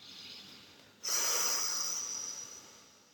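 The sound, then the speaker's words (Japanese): A slow, deep breath, drawn in through the nose and let out through the mouth, is heard as one soft, airy hiss. It starts abruptly after a quiet stretch and eases off gradually, with no talk. “それでは一回大きく鼻から吸って口から吐きながら火に感謝します。”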